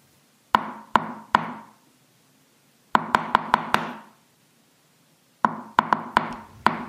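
Knocking on a door in three sharp bursts: three knocks, then a quicker run of five, then another rapid series, each rap hard and ringing briefly, with silence between bursts and no voices.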